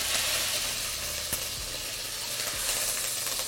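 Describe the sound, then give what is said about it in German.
Rosemary and thyme sizzle briefly in a hot braising pot while making coq au vin, a steady, soft frying hiss broken by a few faint clicks of stirring. “Wir geben jetzt ganz am Schluss unsere Rosmarin und Thymian dazu und den einmal kurz mitbroten.”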